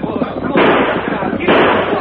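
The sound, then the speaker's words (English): Gunfire in a radio western drama: two loud, harsh blasts, each with a sustained noisy tail, over a continuous rough background. “He's shooting.”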